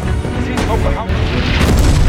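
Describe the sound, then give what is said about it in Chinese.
Artillery shells exploding as mortar rounds rain down on retreating armored vehicles in a canyon, heard as a few heavy, loud booms over a dense, continuous roar. “一发接一发的炮弹如同雨点般朝着撤退的战车砸来”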